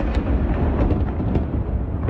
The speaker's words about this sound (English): The sound of a Russian missile pelting towards Kyiv was caught on camera by an AP reporter.